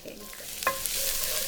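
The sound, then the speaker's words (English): Garlic hitting shimmering hot oil in a skillet: a soft clatter, then a steady hiss of sizzling and frying that holds level to the end, with no talk. “So you want the oil to be sort of exactly shimmery hot. Exactly. And we start with garlic.”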